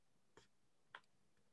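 Two short, sharp mouse clicks, made to unmute on a computer call, stand out alone against a faint, quiet hiss, spaced about half a second apart.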